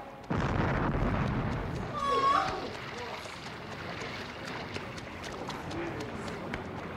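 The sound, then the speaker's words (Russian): A cannon is fired over a river to raise a drowned body: one heavy boom bursts out and fades into a long, rolling rumble, with faint voices over the low noise that follows. “Том, для чего они стреляют? Для того, Томми Барнс, чтоб Гек всплыл наверх. Когда стреляют, труп всплывает наверх.”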